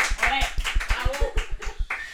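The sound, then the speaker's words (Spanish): An audience claps in brisk, steady rhythm, with many sharp, evenly spaced hand claps ringing out clearly for about two seconds. “Fuertes aplausos a ese público,”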